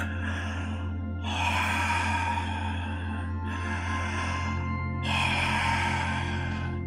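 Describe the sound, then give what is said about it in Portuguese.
Rebirthing breathing demonstrated with equal-length inhales and exhales: a few long, airy breaths of similar duration follow one another at a steady pace over a low hum. “respiração do renascimento, né? que é uma respiração que a gente é, é, inspira uma quantidade de tempo e expira a mesma quantidade de tempo, como se, se eu fizesse alguma coisa assim, ó.”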